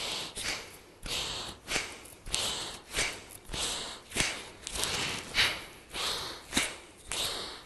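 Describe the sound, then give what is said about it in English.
Rapid breathing in and out through the nose as a breathwork exercise: many quick, airy, snorting puffs follow one another in a steady, even rhythm, with no speech over them. “Using only your nose, inhale, exhale, inhale, exhale. Find your rhythm, go as slow as you can, go as fast as you want.”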